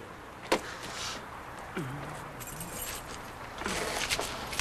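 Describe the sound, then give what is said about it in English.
Keys are dropped and picked up by a woman walking unsteadily toward a building: a sharp metallic clink, faint rattling, then renewed light jingling near the end, all quiet over a low background hum. “She drops her keys, slowly picks them up,”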